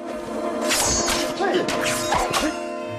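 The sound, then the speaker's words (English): Two men cross swords in a fight, producing several sharp clashing hits and swishing strokes in quick, uneven succession over a ringing background. “He grabs the other one. He throws the scabbard at Lee. The two men cross swords.”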